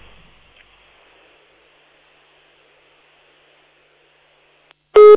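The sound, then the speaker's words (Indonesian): After near silence, a single loud electronic telephone tone breaks in at the very end as a radio call-in line disconnects. “Terputus. Mohon maaf, Ummu Zaki. Taib, kita mohon maaf yang sebesarnya terputus sambungan teleponnya dari Ummu Zaki yang ada di Bandung.”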